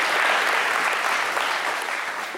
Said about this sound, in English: All right. Let's hear it for Yahweh.